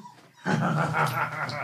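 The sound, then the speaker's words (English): A dog wearing a cone on its head, running about in a room, gives a sustained, tonal whining and growling vocal that starts abruptly after a brief quiet stretch and holds for over a second, with no talk. “Uh-oh, dog's here. Zippy's in here. Running about. Zippy has a cone on her head.”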